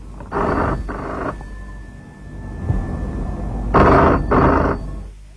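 A home telephone rings in two double bursts, each pair of short, buzzy rings followed by a pause, loud and heard alone.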